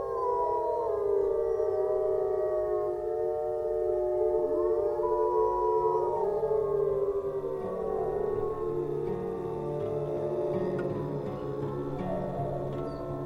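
Several wolves howl together while regrouping the pack after it split up during a hunt: long, sustained, overlapping tones bend up and down in pitch and flow into one continuous chorus with no talking.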